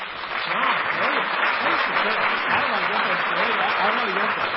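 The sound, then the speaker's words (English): Audience applause welcoming a speaker to the podium, a thick, sustained wash of clapping at a steady level from start to finish, with a voice heard through it. “Thank you. Well, thank you for that warm word of welcome and applause.”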